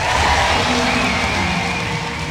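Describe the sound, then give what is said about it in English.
Cheering crowd at a packed rally in the Choctaw Event Center as a Republican nominee for governor takes the stage: a steady, broad roar of many voices that eases slightly toward the end. “The crowd at the packed Choctaw Event Center erupted as Mazey took the stage ahead of President Donald Trump's arrival.”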